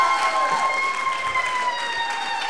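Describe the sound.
Audience applause welcoming a speaker to the platform: dense, steady clapping that stays loud throughout, with sustained high tones running above it.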